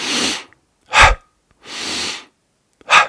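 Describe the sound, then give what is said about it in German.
Breathing demonstration of short, forceful exhales through the mouth: two quick, sharp puffs of air alternate with two longer, softer airy breaths drawn in through the nose, loud and with no talk. “Bei der Mundausatmung nicht kurz in den Mund ausatmen, also nicht so,”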